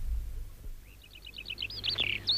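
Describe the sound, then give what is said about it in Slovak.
A skylark sings a quick run of high, bright chirps that tighten into a rippling trill, faint at first and then a little stronger, over a soft low rumble. “Čo ma tak zavčasu vyvoláva, Škovránok?”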